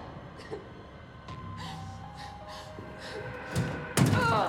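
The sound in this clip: Someone bangs desperately on a door that stays shut. A few dull, scattered thumps build to heavier, louder bangs near the end.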